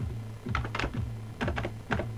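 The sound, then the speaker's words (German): Soft keystrokes on a computer keyboard as a terminal command is typed, a few quiet, irregular clicks over a low steady hum. “Ich tippe ein File, Leerzeichen, den Dateinamen, bild.png, Enter.”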